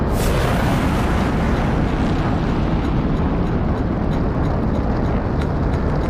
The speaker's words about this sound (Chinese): 四、三、二、一，点火，起飞。